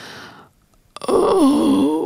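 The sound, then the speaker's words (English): A woman groans in pain aboard a ship, a drawn-out, wavering low moan that rises and falls in pitch and stays loud, following a brief silence and a short breath-like onset. “In the silence that has fallen upon the ship, the groaning becomes audible. A deep groan. A woman's voice.”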